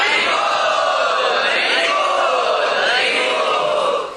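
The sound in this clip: A loud crowd chants together in welcome at a camp, many voices joined in a sustained, forceful unison that fills the whole stretch before fading at the end.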